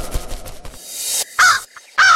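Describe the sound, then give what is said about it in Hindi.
A crow caws after snatching a roti from a boy's hand, giving two loud, harsh caws near the end after a few softer bursts of noise. “कौआ कौआ माँ कौआ, अरे मेरी लोटी ले गया, मैं तुझे नहीं छोड़ूंगा कौआ।”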